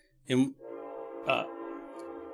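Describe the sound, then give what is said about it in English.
A passing train sounds its horn, a steady, sustained multi-tone blast that holds on beneath two brief bursts of talking. “There's a train going by. I'm going to wait a second. There it goes.”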